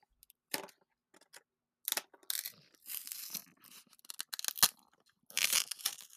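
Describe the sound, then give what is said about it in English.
A cardboard box is torn open in irregular bursts of ripping, crinkling and crunching, some sharp and loud and others brief, with short pauses between them. “Let me go ahead and open the box.”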